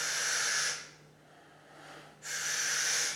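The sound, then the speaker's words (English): Deep breathing in through the mouth to fill the belly and lungs: two long, loud, airy rushes of breath separated by a quieter pause of about a second. “so you fill the belly and the lungs right up, and then let it out, fill it up. So you're really like sucking it in.”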